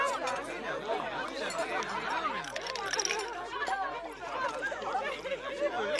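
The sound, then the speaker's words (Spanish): Overlapping chatter from several people at an ordinary family dinner, a continuous lively babble of voices with no single speaker standing out. “Seguramente estos te parecieron sonidos de una cena cualquiera, familiares.”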